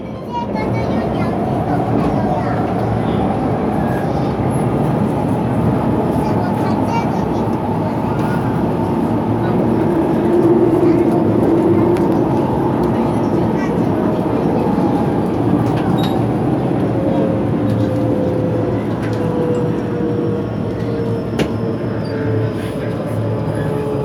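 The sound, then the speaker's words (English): A metro train runs with a steady, loud rumble and rushing noise that holds constant for the whole stretch, with only slight swells. “艾斯特医美提醒您，本次列车开往光达，下一站袁家岭。”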